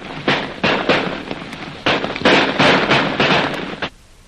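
Gunshots fire in rapid bursts during a staged shootout, with many sharp, crackling reports in quick irregular succession, each trailing off in a brief noisy tail before the volley stops.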